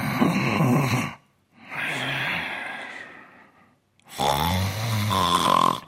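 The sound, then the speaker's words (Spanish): Snoring of a sleeping person: three long, rasping snores separated by short silences, each a rough, buzzing breath of similar loudness, with no talk. “el cuerpo dice, lo tengo a huevo. Voy a hacerle roncar.”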